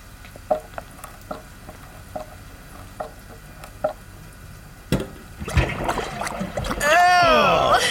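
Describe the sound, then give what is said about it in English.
Water pours from an opened drain pipe into a wash tub. A few faint, sharp clicks come first, then the water bursts out into a loud, broad, steady rush that swells toward the end. “do you have a bucket or something? A lot of water is going to pour out when I open this drain pipe. Will this wash tub work?”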